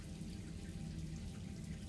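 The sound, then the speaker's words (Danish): Water runs from a tap in a bathroom, a faint, steady hiss of flowing water that holds even from start to finish with no breaks. “Vandet løber. Dampen bliver tættere på badeværelset.”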